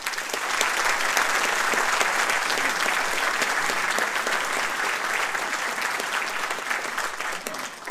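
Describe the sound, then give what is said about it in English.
Audience applause welcoming a speaker to a book talk, a dense, loud and steady clapping that holds for the full eight seconds with no voices over it. “Please join me in giving a warm welcome to Jennifer Potter.”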